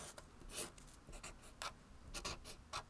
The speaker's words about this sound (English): Look, first you draw a big circle. Then add three triangles, a big triangle and two small triangles.